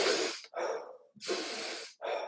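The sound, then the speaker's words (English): A person demonstrates breathing in through the nose and out through the mouth: four loud, breathy airflow bursts in quick succession, the last one cut short. “So we'll go in through the nose and then we'll just go out through the mouth, but it's like this.”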